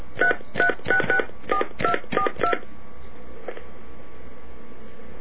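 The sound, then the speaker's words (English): Telephone keypad tones dial an area code and phone number in a quick, evenly spaced run of short beeps. The line then falls to a faint steady hum. “Please enter the area code and telephone number, followed by pound. Now, do you hear that? Yeah, I hear it. Dial the area code and telephone number.”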